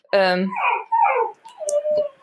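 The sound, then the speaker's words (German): A dog barks and whimpers, wanting to be let outside, with short yelping calls rising and falling over about two seconds, loud against the quiet. “das ist der Hund, der möchte raus.”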